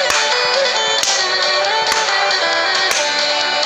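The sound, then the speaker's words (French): Children jump four times, each landing a sharp, slap-like impact at roughly one-second intervals, set against a dense, steady background wash. “Quatre sauts et on tape dans les mains une fois là-haut. C'est parti.”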